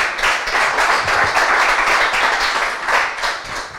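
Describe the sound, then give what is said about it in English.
Audience applause welcomes a co-host to the stage. Loud clapping comes in uneven surges that swell and ease throughout, with no talk over it. “Give him a hand. Make him feel welcome.”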